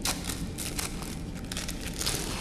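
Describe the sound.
Crinkling of a wrapper as a needle is unwrapped, a steady, soft crackle with a few sharper bursts throughout, no voices.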